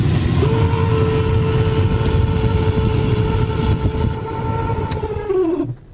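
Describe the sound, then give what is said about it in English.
Steady droning whine from a failing car defroster blower fan motor, holding a constant pitch with a tonal hum, then winding down with the pitch dropping as it cuts off at the end. “that's what the noise is in a blower motor of a defroster or air conditioner or heater, whatever you got. That makes the fan go round and round. When it starts to go bad, that's exactly the noise”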